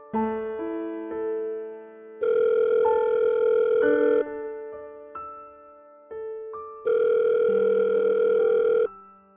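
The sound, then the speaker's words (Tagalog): Telephone ringing on an outgoing call: two long, loud buzzing ring bursts separated by a pause, set over a soft, steady melodic background with no voices. “nilapitan ko ang tao makakatulong sa akin agad kong tinawagan si Weng”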